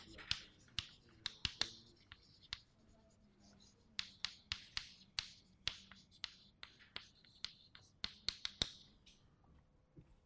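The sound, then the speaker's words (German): A pen writes by hand in many quiet, scratchy strokes with an irregular rhythm, some sharp and some brushing. “Also ich schreibe mal dahinter Schwingungsspektroskopie.”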